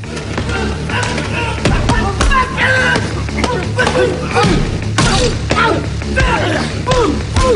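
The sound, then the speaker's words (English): Heavy thuds, whacks and slams of a brutal punching and kicking fight in a cramped toilet cubicle where a ceramic cistern gets smashed, with many dense impacts packed over a loud, continuous backdrop. “The stranger shatters the cistern and they fight in the cramped cubicle. The woman flees as Danny batters in the toilet.”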